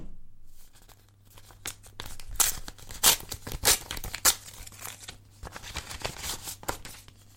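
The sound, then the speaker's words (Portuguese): Paper tears and crinkles as a letter is opened, a series of sharp ripping bursts and rustles of uneven loudness that come after a moment of quiet. “Ele abriu a primeira carta e leu.”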